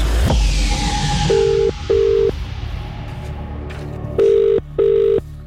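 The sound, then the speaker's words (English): Telephone dialing and ringing, beginning with a click and a short steady tone, then ringback tones in two paired bursts separated by a pause, loud and clear with no voices. “I'm about to press dial on one number that's on our callback list.”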